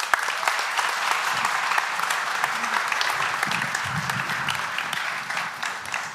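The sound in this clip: A church audience applauds as a speaker is welcomed to the front, with dense, even clapping that holds at a steady, fairly loud level for several seconds.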